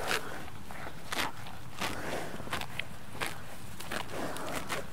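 Buffalo grazing outdoors in the Netherlands bite and tear at grass, making many irregular, crisp ripping and crunching snaps over a steady low background hiss, with no voices.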